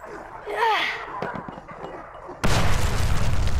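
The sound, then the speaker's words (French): A grenade explosion bursts in suddenly and loudly, then rolls on as a dense, noisy rumble. It follows a stretch of wavering vocal sounds and softer scattered knocks. “vous l'avez dégusté, ma grenade, hein?”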